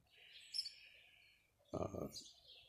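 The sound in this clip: Birds chirp and sing at dawn as the sun comes up, faint, high, thin calls drifting throughout, with a brief louder, fuller burst of sound just past the middle.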